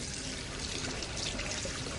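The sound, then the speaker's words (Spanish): Hands being washed under running water in a hospital, a steady, faint hiss of flowing water that continues unbroken with no voices. “se lava las manos”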